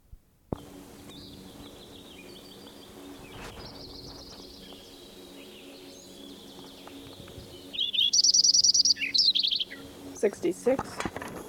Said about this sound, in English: Lincoln Sparrow number 7, continued from last tape.